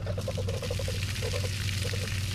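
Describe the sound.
Water gushes from a fire hydrant opened by unscrewing its cap on Washington Avenue at March Street in the Edison neighborhood, a steady, dense rushing with no breaks over a low constant hum.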